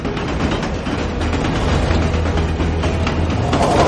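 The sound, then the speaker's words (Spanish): A train running between buildings at night gives a loud, steady rumble with rhythmic rail clatter that stays constant the whole time. “De noche el tren circula entre edificios.”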